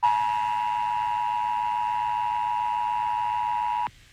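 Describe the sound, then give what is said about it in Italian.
The Emergency Broadcast System test attention signal from 1990s US television: a loud, steady electronic two-tone hum held unchanged for nearly four seconds, then cut off abruptly. “Ascoltiamo ora un messaggio di test dell'Emergency Broadcast System trasmesso sulle TV americane negli anni 90.”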